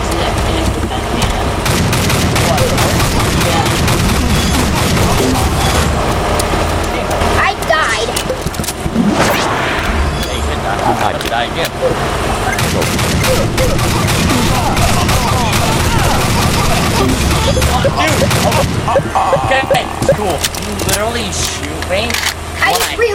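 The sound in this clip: An M60 machine gun fires in a video game, a long stretch of dense, loud automatic bursts layered with other game sounds.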